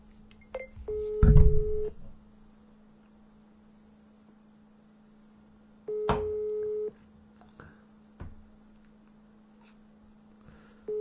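Ringback tone of a telephone call being placed: two steady one-second beeps about five seconds apart, then a third starting right at the end, with a few bumps and low rustles in between.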